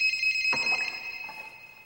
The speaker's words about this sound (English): Joseph grabs his cell phone and sees that it's Laura calling.